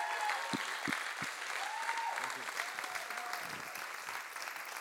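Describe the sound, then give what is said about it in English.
An audience applauds to welcome a speaker to the stage. The clapping is dense and steady throughout, with no break. “So would you put your hands together and welcome John Lavapie as he comes to speak.”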